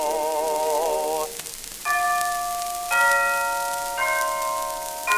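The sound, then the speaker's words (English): A clock chime rings out the hour of three o'clock within a song, heard as a series of clear, sustained bell-like tones struck at a steady pace about a second apart. “There goes the 3 o'clock chime, chiming, rhyming.”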